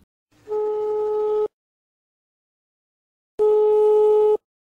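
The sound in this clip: Telephone tones sound while a call is being placed: two steady, electronic beeps of about one second each, separated by a roughly two-second silence, clear and alone.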